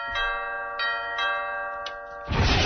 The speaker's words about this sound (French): Sonnerie là, cette vieille sonnette là.